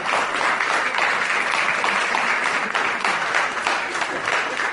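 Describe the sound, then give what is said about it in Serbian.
Audience applause at a poetry reading, a dense, even roar of many hands clapping that holds at the same loud level from start to finish with no voices breaking through. “Morat će aplauzi duže da traju dok pesnik nađe sledeću pesmu.”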